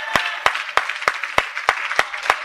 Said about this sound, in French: Acclamons le Seigneur. Acclamons le roi des rois et le Seigneur des seigneurs.